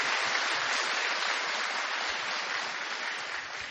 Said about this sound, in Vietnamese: Xin hội trường cho một tràng pháo tay thật lớn để chúc mừng.